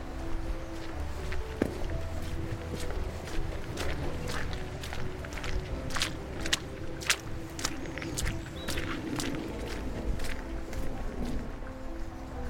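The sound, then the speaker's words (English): Footsteps walking down a path on Reigate Hill: many quiet, fairly regular crunching steps over a soft outdoor background. “So we're just walking down the path”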